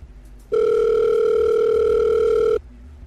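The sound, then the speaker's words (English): Telephone call-connecting tone: a single steady, loud electronic tone held for about two seconds, starting and stopping abruptly over faint background noise. “Your call is connecting.”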